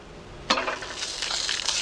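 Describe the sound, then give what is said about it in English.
Sudden crackling sizzle as an egg hits a hot pan, from the 1980s "This Is Your Brain on Drugs" anti-drug TV commercial, bursting in after a quiet start and then hissing steadily with small pops. “They did the little nod to those This Is Your Brain on Drugs commercials in the 80s. Mm-hmm. And it's actually Johnny Depp doing the cooking of the egg.”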